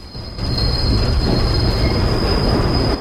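A train carriage rolls along rails with a steady, loud roar and a sustained high wheel squeal throughout. The rumble swells after the first half second, and no voices are heard.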